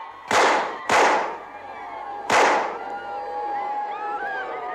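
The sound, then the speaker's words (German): Three pistol shots fired at a man walking with companions, each a sharp, loud bang with a ringing tail. The first two come close together and the third follows after a pause, over a steady background hum. “Mahatma Gandhi wird von drei Schüssen getroffen und sinkt blutend zu Boden.”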